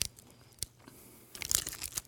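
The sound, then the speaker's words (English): Faint crunching and crinkling as someone eats a white chocolate candy bar with Fruity Pebbles cereal baked in, a few soft bites and wrapper rustles, louder toward the end. “I gotta eat fast. It's like white chocolate with Fruity Pebbles baked in.”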